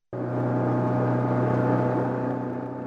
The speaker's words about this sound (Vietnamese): Từ bến cảng Cái Rồng, chiếc cano rẽ sóng được chúng tôi ra biển đến với khu vực Vịnh Bái Tử Long